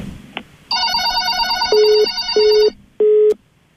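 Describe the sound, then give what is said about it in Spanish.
Telephone line tone after a call is cut off: a short, high warbling tone gives way to three loud, steady low beeps, evenly spaced with brief gaps between them. “se nos cortó esa llamada”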